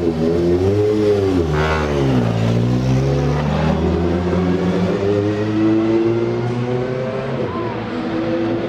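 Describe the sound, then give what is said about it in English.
Touring racing cars roar around the Thruxton circuit between the Allard and Campbell corners, a continuous loud engine drone that rises and then drops in pitch as a car passes, followed by further steady engine noise. “as you can probably hear, I'm right by the track here at Thruxton between Allard and Campbell.”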